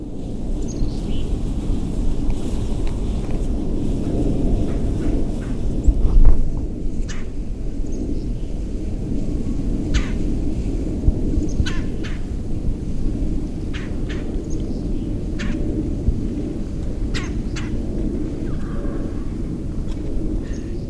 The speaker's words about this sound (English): disclaimer: I have no idea what bird calls those are. It was my first time ever birding.